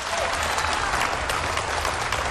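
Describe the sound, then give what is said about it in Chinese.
Audience applause at a small comedy theater, a steady, dense wash of clapping hands that holds at an even level throughout without any voices standing out. “你可真正要掌声啊！”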